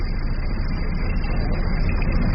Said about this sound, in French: C'est la panne. Le moteur ralentit.